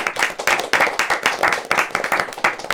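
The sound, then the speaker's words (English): A small studio audience gives itself a hand. The clapping is brisk and lively, with quick, closely spaced bursts of hand claps and a pulsing rhythm throughout. “And thanks to today's studio audience. Give yourself a hand.”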